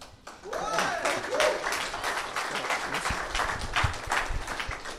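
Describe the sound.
Audience ovation for a guest speaker at a church gathering; continuous, fairly faint clapping with a few cheering voices rising early on, holding steady throughout.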